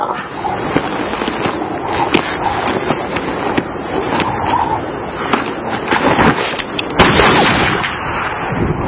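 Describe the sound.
Gunshots ring out as men shoot at cornbread on the prairie, a dense run of sharp cracks and crackling bursts, with a few louder reports standing out from the continuous clatter.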